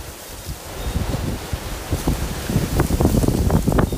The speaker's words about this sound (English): Apparently, we're having a hurricane in California.